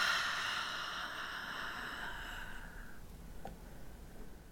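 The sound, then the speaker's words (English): A slow, deep exhale of breath, a soft and steady airy hiss lasting several seconds beneath a faint sustained tone that fades partway through. “take that deep breath in. And keep inhaling, really fill up your lungs and take up space. And exhale.”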